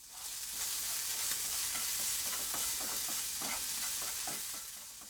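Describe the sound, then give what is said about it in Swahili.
Shrimp fry in a pan over low heat, a steady sizzle threaded with scattered crackles and the scraping of stirring, rising quickly at the start and easing slightly at the end. “Kisha kaanga kamba kwenye moto wa chini hadi wabadilike rangi ya maziwa.”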